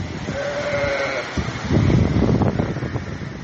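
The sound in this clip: Sheep bleating in a yard in Bazar-Korgon district, Jalal-Abad region, as a rain-driven mudflow passes through: one drawn-out, wavering bleat over rough, steady wind noise that grows louder and thicker afterward.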